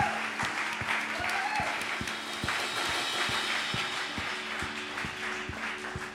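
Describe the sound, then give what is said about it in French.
A church audience applauds the worship team, which is playing while ill. Soft, steady clapping continues throughout over quiet sustained keyboard chords and a regular thumping beat. “je propose aussi qu'on acclame l'équipe de louange qui, même malade, est là devant nous afin de le louer.”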